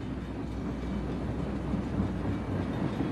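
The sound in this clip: A train travelling through a tunnel makes a steady, low, continuous rumble that stays even throughout, with no distinct clicks or voices.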